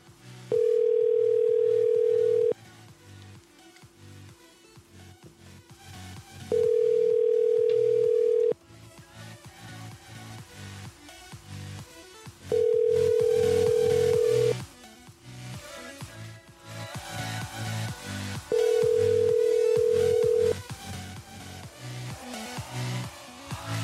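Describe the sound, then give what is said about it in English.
Telephone ringback tone while placing a call: four long, steady, low-pitched tones of about two seconds each, separated by gaps of roughly four seconds, over faint background sound. “I'm going to call now, see if she'll pick up again. They usually won't pick up now when they've had a bad phone call.”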